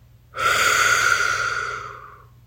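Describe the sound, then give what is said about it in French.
One deep, airy breath during a guided breathing exercise: a soft breathy rush that starts abruptly, holds steady, then slowly fades away over about two seconds, alone and fairly quiet. “Inspirez en remplissant vos poumons. Expirez en faisant grandir votre bubble.”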